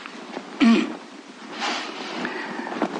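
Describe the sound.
A single short, forceful sneeze bursts out near the start, then trails into softer, breathy rustling noise.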